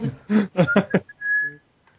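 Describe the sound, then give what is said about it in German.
A person whistles part of a song tune, a short clear whistled note that follows a few quick sung syllables, then fades out. “Das ist nicht Lala, du pfeifst.”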